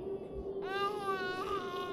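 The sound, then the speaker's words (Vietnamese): A baby girl cries hard, a loud, harmonic wail that starts partway in and continues to the end, over a steady low tone. “sao con bé nó khóc dữ vậy chị?”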